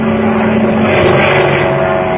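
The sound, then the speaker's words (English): Steady, loud propeller-engine drone of a seaplane taking off on water, holding a continuous roar with a few sustained tonal hums and no clear breaks over the whole stretch. “Remember now, son, pull back on that stick to start the takeoff. You've got to get her up on the step or she won't move.”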